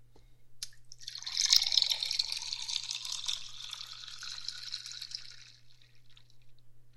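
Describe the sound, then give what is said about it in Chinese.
Hot water being poured into a cup, a faint, hissing splash that swells after a second, holds for several seconds and then tapers off, over a constant low hum. “我给你倒点水喝吧，喝完水再洗澡。”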